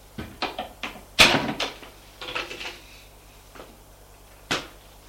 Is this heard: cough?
no